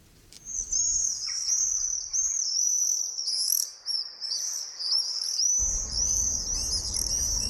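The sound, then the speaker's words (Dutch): Common swifts call overhead in summer: shrill, high, continuous trilling screams from several birds that overlap and waver in pitch throughout. A low rumble joins in the latter part. “Hoe hou je al deze vrolijke zang en dit gekwetter uit elkaar? In onze cursus Vogelzang herkennen zijn we aangekomen bij de gierzwaluw.”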